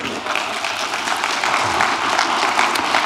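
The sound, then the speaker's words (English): Audience clapping fills the whole stretch as a steady, dense wash of many hands, loud and even, with no voices over it. “I'm assuming all of that clapping is for her because she's put up with me for that long.”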